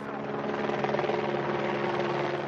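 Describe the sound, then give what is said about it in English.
A helicopter flies low, about 30 meters above the terrain, carrying a measuring antenna. Its engine and rotors make a steady, loud, continuous drone with a low humming undertone that holds evenly throughout. “A helicopter flies the measuring antenna about 30 meters above the surface of the terrain.”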